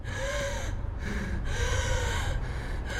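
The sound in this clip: Strained gasping and labored breathing from a woman struggling for air as she limps out of an elevator: a few harsh, ragged gasps over a steady low background.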